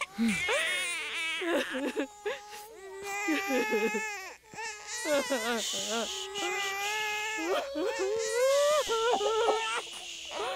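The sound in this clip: A hungry newborn baby cries loudly and continuously, its high wailing voice wavering up and down in pitch with short catches between sobs.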